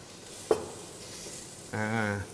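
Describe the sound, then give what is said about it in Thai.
Faint sizzling and stirring as squid and shrimp are stir-fried with garlic, a quiet steady hiss broken by one sharp scrape early on and a short tonal sound near the end. “ใส่หมึกกับกุ้งลงไปคลุกเคล้ากับกระเทียมนะครับ”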